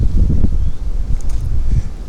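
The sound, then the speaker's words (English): Wind blowing across a windward island where someone stands sheltered beside a tree, buffeting the microphone as a steady low rumble with gusty swells. “Oh, I'm marooned by the wind right now.”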